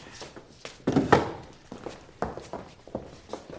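Chairs brought and set down on a stage in a staging of Molière's Le Malade Imaginaire: a run of soft thuds and footsteps, with a cluster of louder knocks near the start.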